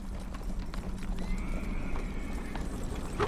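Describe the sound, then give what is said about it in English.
Steady clip-clop of hooves from a horse-drawn coach and its mounted knight escort passing through a misty forest and over a bridge below a stone castle, a dense, continuous clatter that stays even throughout. “a horse-drawn coach as a convoy of knights on horseback lead the way through a misty forest.”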